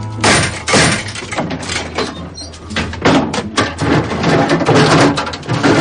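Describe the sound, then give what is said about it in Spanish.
A cabinet door opened inside the armoured compartment of a Western stagecoach, heard as a dense run of clunks, knocks and rattles with scraping movement throughout. “Uno de los forajidos se apresura hacia el habitáculo blindado. Abre un armario.”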